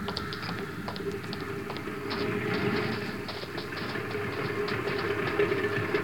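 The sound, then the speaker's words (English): An airplane's engine drones as it comes in to land, a steady low rumble with light rattling clicks that swells a little partway through. “Yeah, she's back. Coming in for a landing now.”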